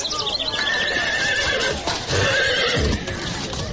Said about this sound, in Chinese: 这时又有一辆马车匆匆赶到